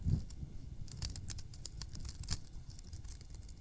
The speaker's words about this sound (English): Now I'd like for you to take the scissors and cut along that line. Okay, can you cut it?